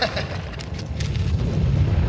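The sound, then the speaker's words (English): A wall collapsing gives off a heavy, continuous rumbling roar, loud and low, with crumbling debris throughout and no break in the din. “The wall's giving way.”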